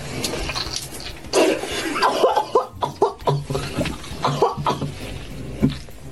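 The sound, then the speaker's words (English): A woman chokes and coughs after something goes down her windpipe: a run of irregular, sputtering coughing bursts of varying strength, some harsh and some gasping, with no clear speech. “That went down my windpipe.”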